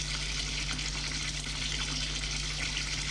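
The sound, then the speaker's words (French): Shower water running in a bathtub, a continuous, even hiss and patter with no breaks, fairly quiet throughout. “Il prend une douche.”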